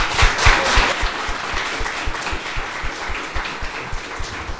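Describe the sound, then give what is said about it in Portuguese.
Applause at a church gathering welcomes a woman. Many separate, uneven claps strike strongly at first, then settle into a steady, slightly softer patter until the end. “Então, eu queria que você recebesse a Luciana com uma salva de palmas.”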